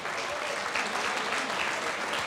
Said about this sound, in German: das ist ein Applaus